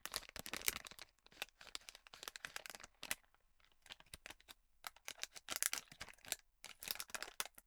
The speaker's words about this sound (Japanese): ピスタチオ1個いけます。開封の儀。あいた。